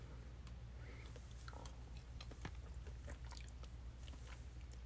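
Chewing of hot, juicy food eaten by hand, faint wet smacks and small irregular clicks of the mouth working steadily, with no voice over them.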